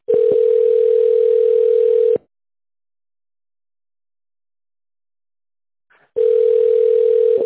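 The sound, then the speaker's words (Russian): Telephone ringback tone while a call connects: a steady, loud, even tone of about two seconds, then about four seconds of silence, then the same tone starts again. “Подождите, идет соединение.”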